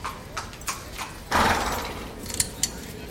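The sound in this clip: Horses move at a race. A few light hoof clops tick along, and then a loud rushing burst swells and fades before more scattered clops.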